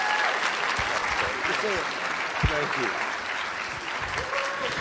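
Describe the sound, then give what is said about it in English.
An audience applauds to welcome a speaker onto the stage, with dense, steady clapping that lasts the whole time and some voices mixed in beneath it. “So put your hands together and welcome Sean as he comes up onto the stage.”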